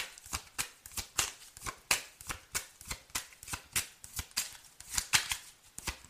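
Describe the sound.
Playing cards are dealt, making many quick, light snapping flicks in a steady, even rhythm. The sound is fairly faint, and no voices are heard.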